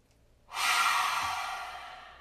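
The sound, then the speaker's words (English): A deep breath released through an open mouth during a guided meditation, a long, loud, airy exhale that starts suddenly and slowly fades over about two seconds, with no talking. “let's take a deep inhalation to seal it in, open the mouth, and let it go.”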